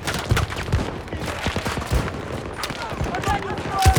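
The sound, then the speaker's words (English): Rapid bursts of M60 machine gun fire come from a video game as the bipod-mounted gun is fired on the move. Dense, sharp cracks repeat irregularly, with voices mixed in underneath. “Yeah, I'm lighting it up with the 60 with the bipod. I am not even using the bipod. I'm running and gunning.”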